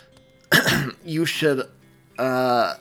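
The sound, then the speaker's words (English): Throat clearing, made vocally by a man awkwardly clearing his throat: three short bursts, the first raspy and noisy, the later two voiced and tonal, fairly loud with brief pauses between them. “awkwardly cleared his throat”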